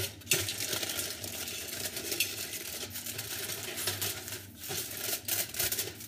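Crinkling aluminium foil being pressed over a cooking pot, a quiet, continuous rustle broken by many sharp crackles and small clinks.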